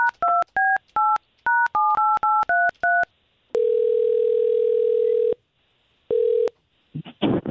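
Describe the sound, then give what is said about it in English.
A telephone number dialed on a keypad: a rapid string of short touch-tone beeps in uneven groups, then a long steady ringing tone, a pause, and a shorter second ring before faint noise at the end. “Let's call her right now.”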